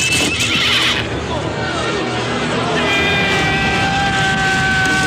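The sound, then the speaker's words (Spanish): War chariot horses neigh loudly in sustained, high whinnies, one early and another drawn out through the second half, with a steady rumble of hooves and motion beneath. “Miran hacia atrás y ven aparecer el carro de guerra de Ramsés.”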